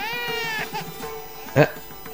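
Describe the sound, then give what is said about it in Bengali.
A baby cries in a high, wavering wail at the start, then lets out one short louder cry later, with voices talking over it. “কি ব্যাপার, একটা একটা বাচ্চার কান্দার আওয়াজ বেশি আসতেছে না?”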